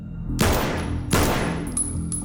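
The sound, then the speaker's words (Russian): Two pistol gunshots in a film scene: sharp, loud, booming bursts spaced under a second apart, each decaying into a long rumbling tail over a low background hum. “Стас выходит из-за угла, держа пистолет перед собой, видит Варламова и Плещееву. Стреляет в них.”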